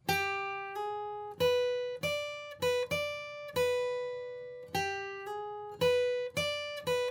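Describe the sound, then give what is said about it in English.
A guitar plays a solo phrase of many plucked notes on the first and second strings, with notes slid up a fret. The tones ring clearly and step between a few pitches in a repeating pattern, with no talk. “here's how you play the solo. Start with your third finger on the second string, 8th fret. And play that note and then slide it up to the 9th fret.”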